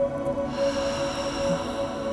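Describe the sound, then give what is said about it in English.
A deep breath drawn in through the nose during a guided breathing exercise: a long, soft, even inhale over a steady tone underneath. “In through the nose, hold it just for a second. Release through your mouth. One more.”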